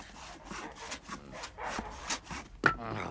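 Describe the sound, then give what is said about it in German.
A saw cutting through a wooden post, with many rhythmic back-and-forth rasping strokes at a moderate, faint level, followed by a sharper knock near the end. “Beim 3. Pfosten hämmert sein Herz so stark, dass er das Sägen mehrmals unterbrechen muss. Die Säge hat den Pfosten halb durchgenagt”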